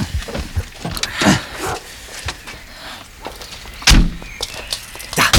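People getting out of a car, with a few sharp car-door thunks and clunks amid rustling and movement noise, one heavier slam standing out near the end.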